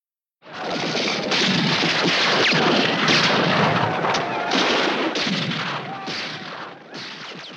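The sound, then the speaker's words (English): Gunfire from a Western film playing on a television: a dense, loud barrage of shots and booming blasts that runs almost without a break for seven seconds and tails off slightly at the end. “Indians galloped around, and cowboys shot at them.”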